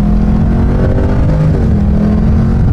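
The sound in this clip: A car peeling away at speed, its engine roaring loudly at high revs with a steady harmonic drone that wavers slightly in pitch, continuous throughout and with no voices.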